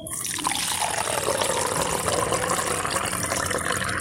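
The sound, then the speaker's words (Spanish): Coffee pours in a steady, continuous stream, gurgling and splashing evenly from start to finish. “Así cuando va cayendo el café.”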